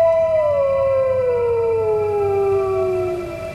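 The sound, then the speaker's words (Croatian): Wolf howling at dawn, one long, loud, sustained tonal howl with rich overtones that slowly glides downward in pitch for several seconds before fading at the end. “Vuk? Usred zore? To ne može biti.”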